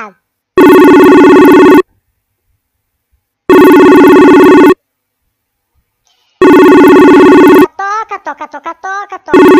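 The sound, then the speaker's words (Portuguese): A telephone rings with no answer: three loud, buzzing ring bursts of about a second each, separated by pauses of roughly two seconds. “Toca. Ninguém atende. Toca e ninguém atende.”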